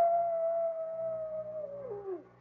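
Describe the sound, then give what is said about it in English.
A coyote gives one long, faint howl that holds a steady pitch for most of its length, then bends sharply downward at the end. “Hey, you know what that coyote's howling about? He just calling for his lady friend.”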